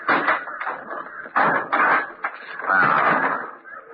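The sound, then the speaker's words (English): A large trunk's cover is opened in a radio comedy scene: a few creaking, clattering knocks and scrapes of moderate loudness, with uneven pauses between them. “Now take a look at this. Wait till I open the trunk cover.”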